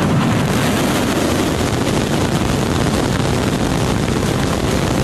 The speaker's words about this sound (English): You are looking at the largest and most powerful rocket in history to blast off from South Texas.